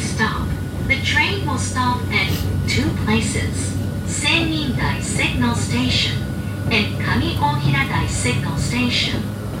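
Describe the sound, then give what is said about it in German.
Steady rumble and hum of a train in motion, running beneath near-continuous talk by people on board throughout the ride. “Diese Bahn, mit der wir übrigens gerade fahren”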